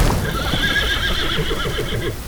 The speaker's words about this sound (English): A flying water horse? Really?